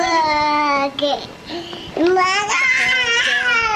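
Babbling from a 20-month-old child, a high, voiced stream of syllables with gliding pitch, running nearly continuously with two brief pauses.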